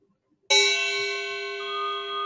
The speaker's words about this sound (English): Following the sound of the chime, allowing it to call you back to wherever you may be